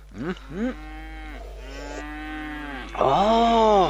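Water buffalo lowing: several deep, drawn-out harmonic moos, one stretched long through the middle, with a strong final call. No voices.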